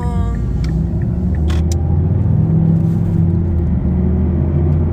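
A car driving on a road, with a steady low rumble of engine and tires that holds constant throughout, with no clear revving.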